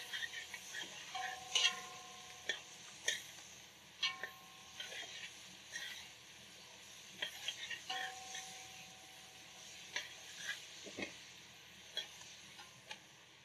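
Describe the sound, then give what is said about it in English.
Onions, peppers and carrot cook in a pan with a soft, steady sizzle, broken by scattered clicks and scrapes of stirring. “And what I'm gonna do is also let it cook for 2 minutes, just to open up the onions and the peppers, and the carrot.”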